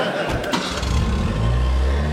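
A car engine starting, its low rumble catching and then building into a steady, heavy idle that fills the rest of the moment.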